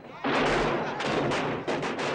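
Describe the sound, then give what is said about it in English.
Soldiers fire guns in a few loud bursts of rough, crackling gunfire, with the shots blurring together into a dense roar. “The soldiers keep firing but fail to stop their advance.”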